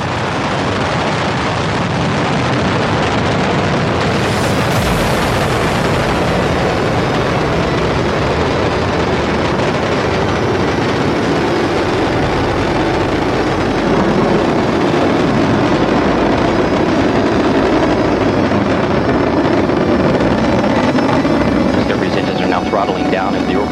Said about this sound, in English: Mission Control Houston, the space shuttle now rolling over onto its back for the 8.5-minute ride into orbit. Discovery now making one last reach for the stars.